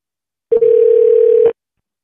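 A single steady telephone tone sounds for about one second while calling a number: a clear, mid-pitched continuous beep with faint pulsing, standing alone between stretches of silence.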